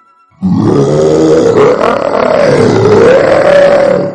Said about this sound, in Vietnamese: Tiếng sư tử gầm vang làm chấn động trời đất.